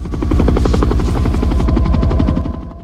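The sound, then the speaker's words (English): A helicopter hovering overhead above a garden with a hot tub, its rotor chopping in a loud, rapid, even rhythm that holds steady and then fades near the end. “A helicopter hovers overhead.”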